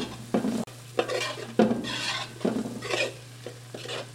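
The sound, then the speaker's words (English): Pasta shaped like small round ears is tossed in a pan with oil, garlic and broccoli, giving soft stirring scrapes and gentle sizzling in a few uneven bursts over a low steady hum. “So now you're tossing the pasta”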